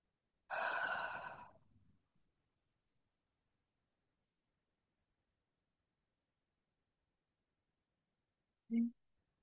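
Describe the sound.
A single deep breath: one long, breathy exhale that swells and then fades away. Quiet follows, broken only by one brief soft sound near the end.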